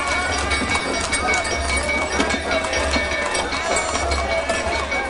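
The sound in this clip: Horse-drawn carriages passing along a street, their hooves clip-clopping in a quick, continuous patter within dense, busy street noise, with voices mixed into the background.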